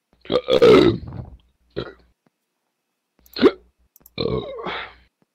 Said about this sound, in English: I'm burping a lot.